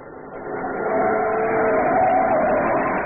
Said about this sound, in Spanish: giró el volante metiendo el camión por un estrecho callejón solitario